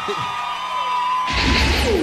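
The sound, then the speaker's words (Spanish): Cheering and applause for a choir. A sustained tone is heard first, then a loud burst of crowd roar and whoops erupts about midway and dominates to the end. “aplauso para ese coro que quedó”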